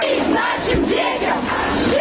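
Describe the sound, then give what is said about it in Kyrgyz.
Anti-war protesters on Moscow's Arbat chant slogans for their children's lives and against war, many voices loud and in rhythmic unison throughout. “Москвада арбатка чыккандар балдарыбызга жашоо, согушка жок деп ураан чакырып турушту.”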